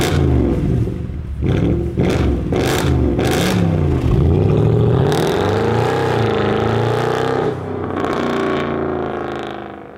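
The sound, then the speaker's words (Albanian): Engine of a Mercedes G63 AMG revving hard: a loud, sustained roar whose pitch climbs and dips over several throttle blips, then eases off toward the end. “makinë e bukur kjo. Ashtu është. Mercedes G6.3 AMG. Dëgjoja çfarë zhurmë ka,”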